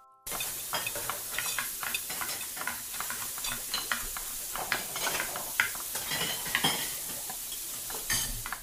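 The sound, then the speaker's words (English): Kitchen sounds of food sizzling and frying in a pan while a utensil stirs and scrapes, with many light clinks of cookware throughout; the clatter is busy and steady, and no one speaks. “Now that we've heard some cocina or kitchen sounds”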